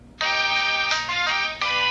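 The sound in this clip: Cell phone ringtone ringing: a bright electronic tonal melody in steady repeating phrases, loud and clear with no talk over it.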